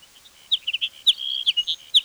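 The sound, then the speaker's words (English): Hedge sparrow song: quick, high, thin chirping notes in short bursts, fairly faint and heard alone against a quiet background. “Hedge sparrow number two.”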